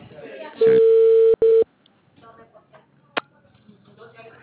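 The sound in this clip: A steady mid-pitched telephone line tone sounds as a call is placed: one long burst, a brief break, then a shorter burst. Faint background voices and scattered soft noises follow.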